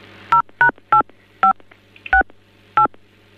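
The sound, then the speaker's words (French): Touch-tone telephone keypad dialing while a call is transferred to another extension: six short, loud dual-tone beeps in an uneven rhythm over a low steady hum, with no talk. “Bon, je vais vous basculer sur un autre poste,”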